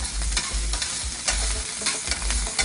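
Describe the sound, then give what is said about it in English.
Oil sizzling and spattering in a frying pan with sauce, a loud, continuous hiss broken by crackling pops, with low thuds of stirring underneath. “Add a little bit of oil. It's going to pop this splatter because oil and water don't mix.”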